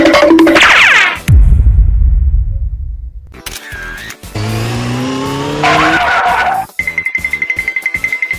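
Squealing tires and engine whine from a car skidding, driven by a drunk driver. Loud, shifting tonal screeches rise in pitch in the middle and end on a steady high whine, with no talk.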